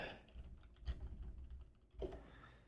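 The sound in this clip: Keys click on a computer keyboard as someone types to look something up, a faint, uneven run of quick taps with a couple of sharper strikes.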